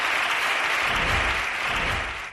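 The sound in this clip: Parliament applauds as the budget is approved: thick, steady clapping from many people at an even, moderate level. It cuts off sharply at the end.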